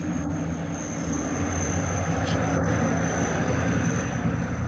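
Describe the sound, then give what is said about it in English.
A big truck drives past with a heavy, continuous engine rumble and broad roar that stays loud and steady throughout. “Hold on. Yeah, just lost your audio. Hold on. Big truck went by, so we lost your audio.”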